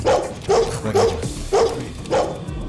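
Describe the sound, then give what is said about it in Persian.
A dog barks five times at a fairly even pace, each bark a loud, sharp, mid-pitched burst with quieter gaps between. “کسا با سگه تو نگهش دار میگم سگه وامونده تو نگهدار، برو گم شو.”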